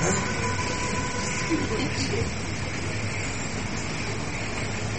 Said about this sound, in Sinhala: මොකක්ද? ඈ? කෝච්චි.